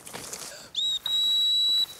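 A person whistles to call a hunting dog back during a small-game hunt: a short high whistle is followed by a long, steady, piercing one, both loud above faint background noise.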